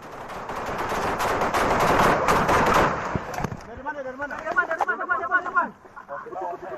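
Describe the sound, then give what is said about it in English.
Rapid, dense gunfire rattles continuously from footage of Indonesian soldiers under heavy fire in West Papua. It then gives way to voices shouting over sparser shots. “This unverified footage of Indonesian soldiers under heavy fire emerged over social media on Saturday”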